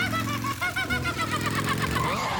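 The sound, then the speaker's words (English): A motorcycle engine gives a short burst of rumbling, pulsing running noise with a slightly knocking rhythm, heard alone for a couple of seconds. “Hey, that's my motorcycle.”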